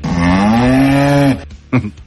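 A cow lets out one long, loud, low moo with a steady pitch, followed by a brief, shorter sound.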